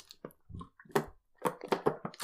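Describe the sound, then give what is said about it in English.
Wet sipping and gulping mouth sounds from a person drinking while seated on a couch, several short, soft bursts coming at uneven intervals, fairly quiet, with no talk over them. “Let's have a quick drink whilst we're sitting on the couch.”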